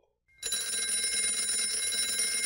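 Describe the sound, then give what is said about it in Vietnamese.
A school bell rings at the end of class. After a brief silence it starts abruptly as a loud, continuous metallic ringing that holds steady to the end, with no talking. “Tiếng chuông ra về vang lên phá vỡ mọi suy nghĩ quẩn quanh trong đầu Nhi.”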